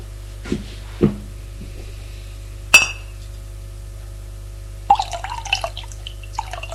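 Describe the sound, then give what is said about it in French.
Glass clinks as water is served from a bottle: three separate bright chinks, then a stretch of water pouring with small splashes and drips toward the end. “Revient avec une bouteille d'eau et fait le service.”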